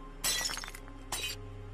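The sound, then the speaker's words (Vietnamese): A glass cup slips from a hand and shatters: a sharp, bright crash spilling into tinkling shards, then a second smaller burst of falling glass, over a faint low hum. “Cái cốc đang cầm trên tay tuột ra, mảnh thủy tinh rơi vỡ tan tành.”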